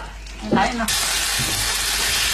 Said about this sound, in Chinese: 茶叶入锅，沉睡半年的清香被热油激发出来，成为油茶香味的基底。